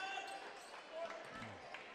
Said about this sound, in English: Dossie, fancy dribbling on the far side on Hill